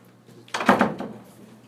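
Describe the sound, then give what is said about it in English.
A door being closed during a class on seventeenth-century poetry: one short, muffled thump with a brief scraping edge, otherwise quiet. “I got up to close the door right then”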